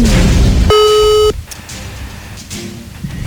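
A telephone call tone sounds as a single steady electronic beep lasting just over half a second. It follows a burst of noise, and then a quiet hiss with a faint low tone continues.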